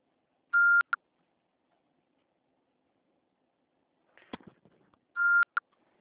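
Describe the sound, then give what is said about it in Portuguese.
Voicemail beep before leaving a message: two short, steady mid-pitched electronic tones several seconds apart, each ending in a click, with a brief faint clatter between them. “Após o sinal, fale o seu nome e deixe o seu recado.”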